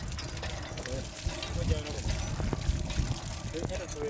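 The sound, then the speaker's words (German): Water gushes from the spout of a newly drilled village well's hand pump, a continuous splashing pour with uneven surges, while indistinct voices murmur in the background. “Das Wasser fließt im Rhythmus der Pumpstöße aus dem Ausguss”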